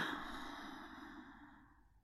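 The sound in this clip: A slow, faint exhale of breath during a guided breathing exercise, a soft airy sigh that tapers off gradually over about two seconds with no other sound.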